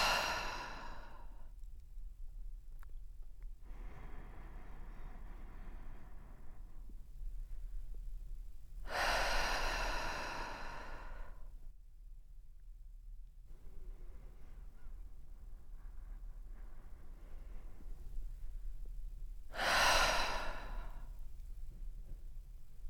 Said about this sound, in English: And take a few more breaths in this way. Inhale through the nose. And exhale through the mouth.